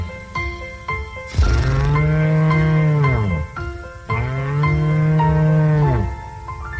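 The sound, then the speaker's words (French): A gentle bull from Cerdagne moos twice, each a long, low, deep call with a rich tonal quality, separated by a short pause and heard loud and clear. “Un charmant taureau venu de Cerdagne, un gentil taureau doux comme un agneau.”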